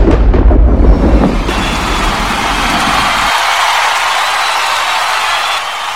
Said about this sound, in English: that bomb was so fucking shocking for me over here.